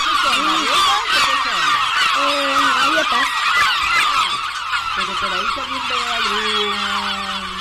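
Seabird calls from a beach sound effect: many loud, honking cries with wavering, bending pitch, overlapping one another in a constant stream. No talking is heard.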